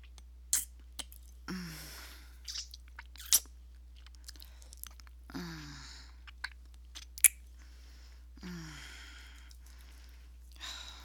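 A person chews while tasting food: quiet, irregular bites and crunchy mouth sounds, spaced out with pauses, and a few short murmured vocal sounds between them.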